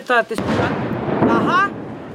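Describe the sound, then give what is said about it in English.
A single heavy gunfire boom in a Ukrainian city hit by fighting, with a sharp onset and a long rumbling decay; voices speak briefly before and after it. “Who knows where the shooting's coming from or going?”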